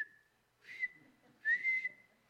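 A person whistles a sustained, fairly high tone with their lips, holding steady throughout with two louder, breathier swells in the middle and near the end. There is no talking.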